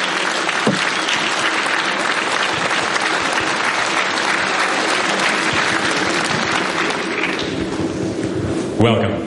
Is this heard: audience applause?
yes